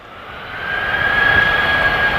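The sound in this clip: A booming sand dune gives off a steady low roar like a jet plane taking off. It is a continuous droning rumble with a faint tonal hum, growing slightly louder partway through.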